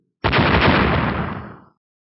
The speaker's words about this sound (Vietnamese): Một hồi nổ mạnh vang lên. Trước ánh lửa mãnh liệt, cự thạch trong phút chốc chia năm xẻ bảy.